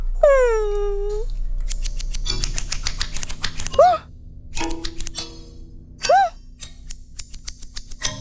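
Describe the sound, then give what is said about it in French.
Scissors cut a plush toy's fur at a hairdresser, a few quick bursts of crisp, rapid snips alternating with short whistling, chirpy sweeps and pauses of near silence. “Le coiffeur va pouvoir te couper les poils.”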